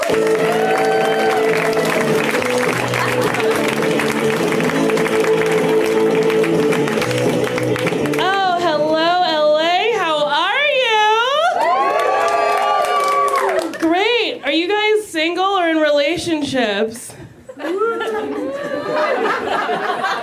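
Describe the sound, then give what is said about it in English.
A comedy-show audience applauds and cheers for a comedian: loud, steady clapping and whoops for about eight seconds, then a voice starts talking as the crowd noise thins out. “A round of applause, everyone, for Nicole Byer.”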